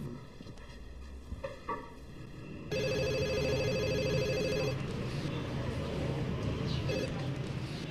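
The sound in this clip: A telephone rings on a call back, with a steady repeating ring tone that starts a few seconds in and continues to the end over a constant background hiss.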